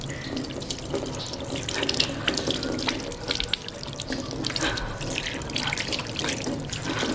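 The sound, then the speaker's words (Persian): A tap runs in a steady, full rush while a hand, injured from striking a wall, is rubbed under the stream, causing uneven splashes and small drips over the continuous flow. “دستش رو که به دیوار کوبیده بود زیر آب ماساژ میده.”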